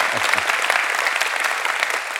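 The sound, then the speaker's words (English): A church audience claps halfheartedly, a short, moderate patter of hands that stays even and unenthusiastic without building. “Come on, give it up for him. You guys are kind of clapping kind of halfway today.”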